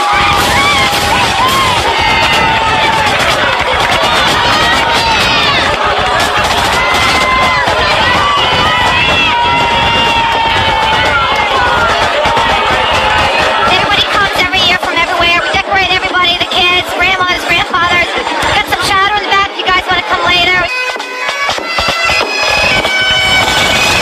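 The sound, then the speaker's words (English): Dense, loud crowd noise at a Fourth of July parade in Bristol, continuous babble of many voices with cheering, whoops and children shouting running throughout. “The heart of Bristol's festivities is the parade. 3 miles of marching bands, beauty queens, and unadulterated Americana.”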